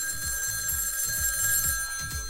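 A studio booth telephone rings steadily and continuously, the bright ringing tones held over a soft, regular low thumping pulse.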